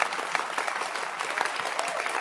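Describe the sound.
Congregation clapping in a church service: dense, steady applause from many hands, fairly loud and even throughout with no pauses.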